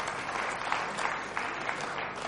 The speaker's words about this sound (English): A big round of applause.